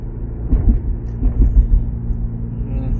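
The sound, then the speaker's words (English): Low, steady engine rumble from a car that is acting up while being driven carefully, with a few slightly louder swells over a constant drone; no voices. “My car fucking up a little bit. I gotta drive it careful.”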